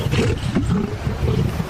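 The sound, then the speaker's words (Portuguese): A lion roars in one deep, continuous rumbling growl that stays loud and low for its whole length, with no voices. “esse animal não é um gorila, é um leão. É o meu guarda-costas.”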